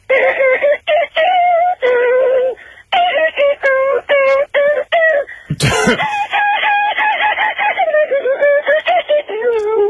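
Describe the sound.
A voice imitates an electric guitar solo as a rapid run of wavering, sung notes in short bursts, broken by one harsh noisy burst near the middle before the notes continue.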